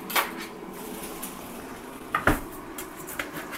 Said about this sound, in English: So right now I'm just using the spoon to kind of mash the onions in.